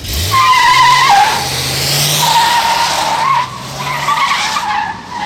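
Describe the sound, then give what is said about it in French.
Tyres screech as a vehicle speeds off under full throttle, a loud sustained squeal over a rising engine drone that holds steady for several seconds before easing slightly. “il aurait pu attendre que je monte quand même, avant de mettre les gaz.”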